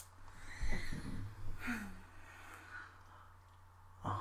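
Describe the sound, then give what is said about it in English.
Sharp, gasping intake of breath from someone hit by the cold, among a few brief breathy bursts over a low steady hum. “That was quite the intake of breath.”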